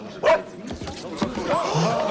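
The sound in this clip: A dog in a courtroom lets out short barks and yips amid people talking, with one sharp bark standing out near the start.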